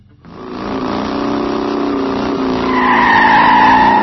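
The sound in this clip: Car tires skid and squeal in a long, continuous screech that starts abruptly. It swells louder toward the end as a sharper, higher squeal rises above the rough grinding, with no voices.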